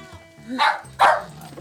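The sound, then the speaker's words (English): Puppy yapping while chewing on a cord: two sharp, bright barks about half a second apart, mid-pitched and fairly loud over low background rustle. “Hey, puppy. Nope, no, don't chew on the cord. Don't chew on the cord.”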